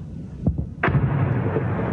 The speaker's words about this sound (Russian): оперативно-тактический ракетный комплекс «Искандер» уничтожил цех по сборке вражеских дронов. Ракета прилетела точно в ангар, расположенный на окраине поселка Новые Беляры.